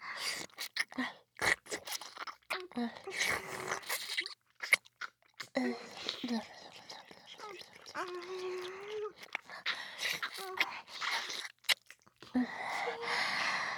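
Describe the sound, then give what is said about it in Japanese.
Tasty fried crumbs are slurped and chewed in crisp, wet crunches and sucking sounds that come in irregular bursts, with a soft voice speaking between them. “このカス絶対美味しいやつ。吸い取るね。 絡ませて。”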